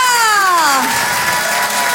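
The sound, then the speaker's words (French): A loud audience welcomes a comedian onto the stage with applause and cheering. A drawn-out vocal cry sliding downward in pitch opens the sound, over a thick, continuous wash of crowd noise and clapping. “Je vous demande de l'encourager très chaleureusement, s'il vous plaît, faites du bruit pour Nathalie Boitel.”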